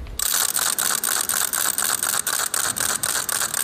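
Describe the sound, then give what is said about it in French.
A small leper's rattle, a crank-turned ratchet noisemaker, is spun and gives a loud, rapid, continuous clatter of clicks. A few brief, regular dips break the sound as the crank turns, with no other sounds. “C'est un appareil qu'on fait tourner, donc avec une sorte de manivelle qu'on doit faire tourner et qui fait un bruit très très intense qu'on entend de loin. Cette crécelle, elle est toute petite,”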